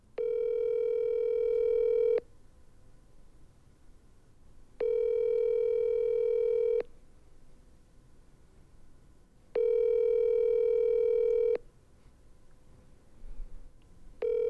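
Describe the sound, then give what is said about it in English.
A telephone call being placed, heard as three long, steady ringing tones separated by pauses, with a fourth tone just starting at the end. “All right, let's give him a call real quick.”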